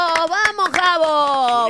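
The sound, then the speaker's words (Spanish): Scattered hand clapping, applause called for in praise of President Milei, sounds as several sharp, irregular claps over a loud, steady held tone with a rich harmonic, voice-like quality that runs throughout. “¡Aplauso para el presidente! Vamos, ¡aplauso!”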